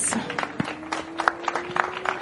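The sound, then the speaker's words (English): Scattered clapping rings out at a motorsport podium ceremony for the junior winner. Sparse, uneven individual claps sound over a faint, steady hum. “And for our junior winner out here today, another round of applause for Maxime Dirix.”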